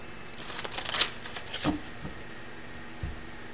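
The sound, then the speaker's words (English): Cards being shuffled during a card reading: a few soft, papery riffling bursts, the busiest near the start, then scattered lighter flicks. The sound is faint, with no talking. “All right, so let's get some additional cards.”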